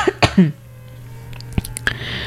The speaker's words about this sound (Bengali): গলার অবস্থা একেবারেই ঠিক নেই, মাঝে মাঝে কেশে ফেলছি।